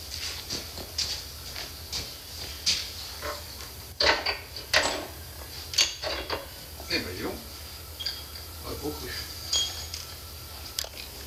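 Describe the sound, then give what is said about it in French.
Pins are driven out of a lever mechanism: many sharp, irregular metallic taps and clinks ring out over a quiet background. “Je vais chasser les goupilles. Ça sort bien.”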